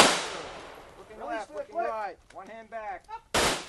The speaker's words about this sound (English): At an outdoor shooting range in the Boston suburbs, police officers from several departments in the area are getting firearms training.